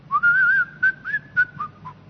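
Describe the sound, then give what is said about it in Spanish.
A person whistling a short tune: a longer, clear opening note that wavers slightly, then several brief, bright notes with small pauses between them, fading toward the end. “Y ellos entendían que silbar era pecado. Usted nunca debía silbar si era cristiano. Era pecado. Yo lo hago hasta por radio.”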